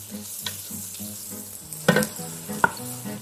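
Garlic fries and sizzles in a pan while being stirred, a steady crackling sizzle over a low hum, broken by two sharp utensil knocks against the pan.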